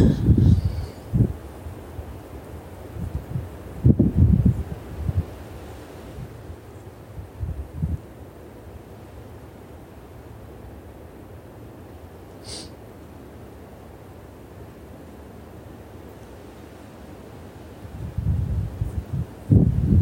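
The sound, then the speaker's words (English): Wind blows through trees in gusty, low rushing swells, with louder bursts near the start, a few seconds in and again at the end, and quieter, steadier air between. No voices are heard. “Feeling into the wind here, the sound of the wind and the trees. The trees give the wind voice.”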